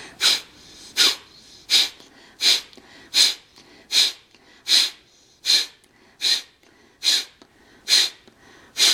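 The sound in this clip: Forceful exhalations through the right nostril during yoga breathing, with the left nostril held shut. A long, evenly spaced series of sharp, breathy nasal bursts follows at a steady quick rhythm, with no talking.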